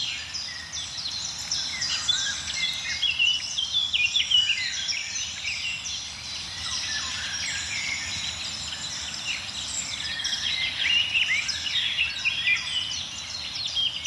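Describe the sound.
Eurasian golden oriole song, a tropical-sounding fluting, set within a dense, continuous chorus of many birds chirping and whistling, steady and fairly loud throughout, with no voices.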